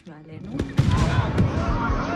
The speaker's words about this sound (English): Look, interceptions. For real, they're launching rockets during the party.